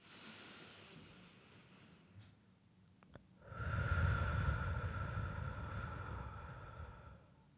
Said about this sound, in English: focus on making that out breath really deep, as in long.